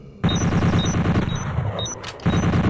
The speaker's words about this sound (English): Bolt gun.